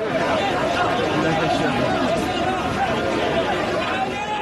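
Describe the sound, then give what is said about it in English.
Crowd of thousands of migrants coming off the beach and heading into the streets of Ceuta, the Spanish enclave in North Africa. A dense, continuous babble of many voices stays loud and steady throughout. “This is the sound of some of those thousands as they came off the beach and headed for the streets of Ceuta”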